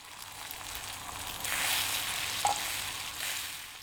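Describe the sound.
Oil sizzling as a spoonful heats in a frying pan before eggs are fried, a steady hissing crackle that swells partway through and stays fairly loud to the end.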